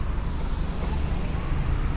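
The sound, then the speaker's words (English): Road traffic at a street intersection as cars turn left across the crossing, a continuous low rumble of engines and tires with no distinct individual events and no talk. “So there's cars turning left on, they're on Ewing, turning on to Frankfurt, and I'm waiting to cross Ewing.”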